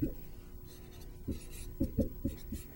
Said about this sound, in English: If you think about the line y equals 4x, I'm going to draw it with dotted lines.